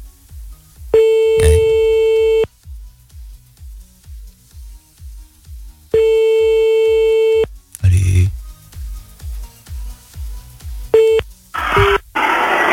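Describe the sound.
A redialled telephone call meets a busy tone that sounds in three long, steady bursts separated by gaps. A regular low ticking pulse runs throughout, and short noisy bursts and quick tones appear near the end.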